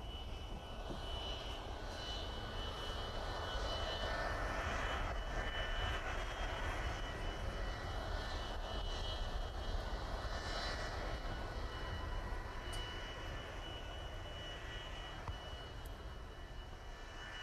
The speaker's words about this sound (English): Attention please, Connacht Airport announces the arrival of Aer Lingus flight 4966 from Dublin.